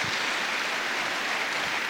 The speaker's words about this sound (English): Clap your hands for these men being real. Clap your hands for them.